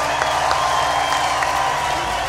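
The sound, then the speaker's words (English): Audience applause, a dense, steady wash of clapping from a crowd that stays at an even, loud level for the whole stretch without breaks. “Give yourself a big round of applause, man. Round of applause, man.”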